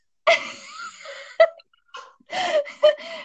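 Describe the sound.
A voice imitates the extra noise some people make after sneezing: a few short, breathy vocal bursts with gliding pitch, separated by brief pauses.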